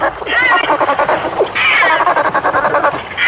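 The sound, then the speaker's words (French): Kookaburra call, the sound used as a dolphin's cry in a TV series: loud, rapid, chattering cackles in repeated bursts with barely a pause. “C'est un oiseau. Non. Un oiseau d'Australie. Oh là là. C'est le cri d'un Kookaburra.”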